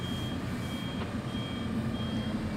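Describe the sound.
Reversing beeps from a truck used to carry medical supplies, tents and power generators: a thin, high steady tone repeating at a regular pace over a low, continuous engine rumble.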